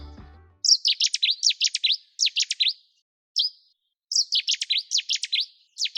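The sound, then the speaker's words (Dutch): Cetti's warbler song: loud, explosive bursts of sharp, rapid high notes in repeated phrases, separated by short pauses and heard alone after a brief low thump at the start. “Wat is dit? Settieszanger.”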